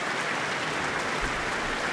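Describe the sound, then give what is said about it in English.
A concert audience applauds the Auckland Philharmonia orchestra after a performance of Mozart's Symphony No. 40 in G minor, a dense, continuous wash of clapping held at a steady, full level. “The audience is giving them a great applause this evening, and from my position, the orchestra also seem to be enjoying themselves as they play.”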